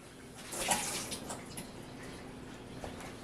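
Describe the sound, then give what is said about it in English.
Liquid dumped out of an automatic egg peeler kitchen gadget: a brief watery splash and pour that swells early, then thins into a soft, fairly faint trickle. “All right, so I'm going to open this up. Okay. Dump out the liquid.”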